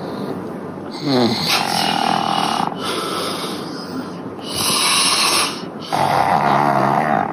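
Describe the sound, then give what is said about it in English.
Snoring from a heavyset man and his pug dog asleep on a couch: a few long, rasping, snorting breaths come in a steady rhythm, fairly loud, with no talk. “this giant fat guy is asleep on the couch with his giant fat pug. And like Menace's dogs, pugs have the smashed in face.”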